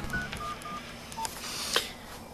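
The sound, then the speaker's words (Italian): Telephone keypad dialing tones: a few short, faint beeps in quick succession, followed by a sharper click-like sound near the end, over a quiet hiss. “Squilla. Non lo farei se fossi in te. Metti giù il telefono.”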